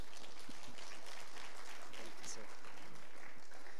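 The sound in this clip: Applause from an audience welcoming a speaker at an outdoor service in Central Park, a continuous dense wash of clapping at moderate level, steady throughout with no clear break.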